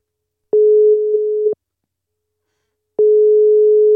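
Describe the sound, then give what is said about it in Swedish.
Telephone busy signal after dialing a number reported as not in service: two long, steady low electronic tones, the first lasting about a second and the second starting after a silent gap, with no talk. “Ska vi testa ringa upp Kimpa? Jag tänker, han är ju den av oss. Det nummer du önskar nå är inte i bruk.”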